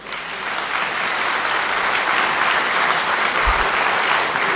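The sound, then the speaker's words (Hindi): An audience clapping steadily for several seconds, a dense, even wash of hand claps at constant loudness with no voices over it. “ताली बजाना तो आता है, इनके वो भी भूल गए।”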